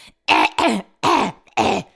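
Throat clearing into a phone microphone, four loud, raspy, partly voiced bursts in quick succession, each a short guttural rasp with a gurgling, phlegmy edge.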